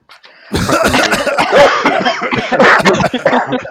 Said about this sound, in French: Alors maintenant que tous les micros sont allumés, je propose une petite toux générale.